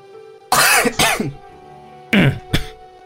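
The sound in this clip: A person clears their throat and coughs after choking on their own spit. Two pairs of loud, harsh, rasping bursts are separated by a second of quiet, with no talking, over a faint low hum.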